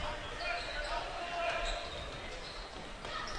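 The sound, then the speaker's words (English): A basketball is dribbled up the court in a women's game, giving repeated bounces under continuous talk and steady background noise. “Dribbles up to the wing.”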